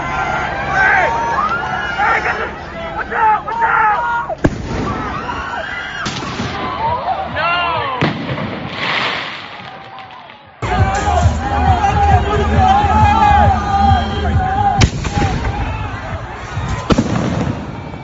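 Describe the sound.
Large aerial fireworks explode near a packed crowd held behind a barrier, with many loud booms and crackling bursts. They come over continuous crowd noise and shouting voices.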